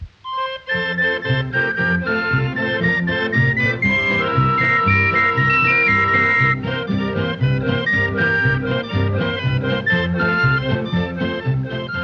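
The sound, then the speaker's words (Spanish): A barrel organ, the cranked street instrument called a cilindro, plays a bright, busy tune with layered melody and chords. The music starts abruptly and stays loud and steady throughout, with no talking. “Se llama cilindro.”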